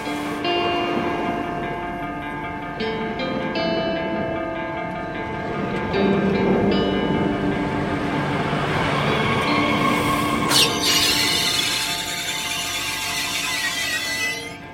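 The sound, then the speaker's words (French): A train stands stopped at a railway station in the Roya valley, giving off a steady low hum with sustained tonal whines. A brief metallic knock sounds partway through, and no one speaks. “on était dans le train de la vallée de la Roya avec Marilyn Desbiol et on s'est arrêté ici en gare de Saint-Dalmas de Tende.”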